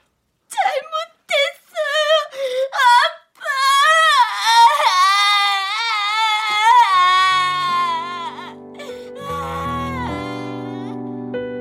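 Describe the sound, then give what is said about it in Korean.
A person cries loudly, first in short choked sobbing bursts and then in a long, drawn-out wavering wail that slowly fades. “근데, 근데 왜, 왜 울어?”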